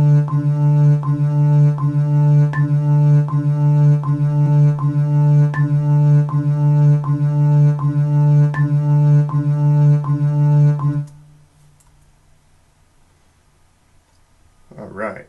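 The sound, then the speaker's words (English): A metronome set to 80 beats per minute ticks in an even, steady pulse, every fourth click accented with a higher tone, over a constant low hum. After many clicks it stops and near silence follows. “I have my metronome just in case you want to know. set for 80 beats per measure or per minute, and it would sound like this.”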